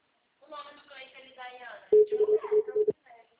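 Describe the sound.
A telephone rings with a steady, buzzing electronic tone lasting about a second. It comes right after a stretch of talk and ends abruptly.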